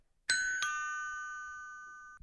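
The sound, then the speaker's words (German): Two-tone doorbell chime at a front door: two quick strikes, then a single sustained ring that fades slowly over about two seconds before stopping abruptly. “Zehn Minuten später läutet es beim Bud Norris an der Tür.”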